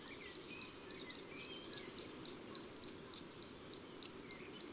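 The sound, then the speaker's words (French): A great tit sings its two-note song, a bright high note followed by a slightly lower one, repeated in a quick, even rhythm many times. The song is loud and clear against a quiet background. “Ti, ti, hu, hu, hu, hu. La mésange charbonnière. L'art de la musique avec deux notes rythmées.”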